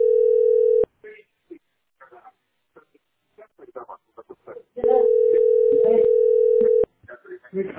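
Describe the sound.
A telephone sounds a steady electronic tone twice, first a short burst and later a longer one of about two seconds, while people talk in the gaps and over it.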